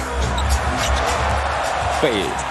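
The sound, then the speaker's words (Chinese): Basketball bounces during a professional basketball game as a player dribbles behind the back. A few low thuds sit under steady crowd noise and a commentator's voice. “背后运球被盖了”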